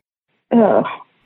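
A single short throat clearing from a person, one rough, voiced burst of about half a second that stands alone against silence.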